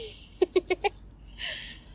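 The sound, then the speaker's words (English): Birds calling outdoors at a picnic: four quick, evenly spaced chirps in a short burst, then a softer, breathier call, fairly clear above a quiet background. “Oh, all the birds go.”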